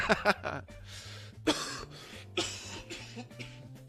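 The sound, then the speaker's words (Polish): Coughing fit from a man on a livestream: several sharp, harsh coughs in quick bursts near the start, then a few more spaced-out coughs, loud and alone with no talk over them. “Aż się rozkaszlałem od tego donata. Przepraszam bardzo.”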